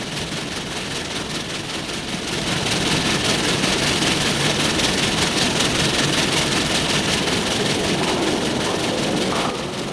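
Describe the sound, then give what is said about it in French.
A train pulls into a station with a dense, steady rumble of engine and wheels that grows louder after the first couple of seconds and then holds evenly. “Le train arrive en gare.”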